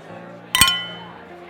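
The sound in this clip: Beer glasses clinking together in a toast: two sharp, bright clinks. The first rings on briefly and the second comes at the very end, over a low background hum.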